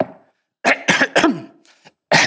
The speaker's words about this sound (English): Has an occasional cough.